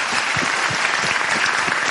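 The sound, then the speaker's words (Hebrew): Applause from a gathering of groups assembled for a lesson: dense, continuous clapping at an even, steady loudness from start to finish, with no voices standing out. “והגיעו לפה חברים, ואפשר גם למחוא מחיאות כפיים מהערבה, ערד,”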